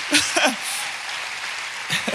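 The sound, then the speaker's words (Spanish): Applause from a church audience, a steady hiss of clapping between bursts of a speaking voice at the start and end. “Si vas a aplaudir, apláudale fuerte al Señor.”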